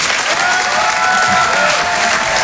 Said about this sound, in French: Je vous demande de l'encourager très chaleureusement, de faire une ovation, s'il vous plaît, à Karine Dubernay.